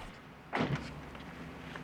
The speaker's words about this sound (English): Then the door opens on the pavement side, so Bud has to climb around him to get out.